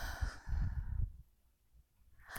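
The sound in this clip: A single sigh-like exhale as a person breathes out on command during a guided breathing exercise. It is a fairly loud, breathy rush for about a second, then it fades to quiet, with a short burst of noise at the end.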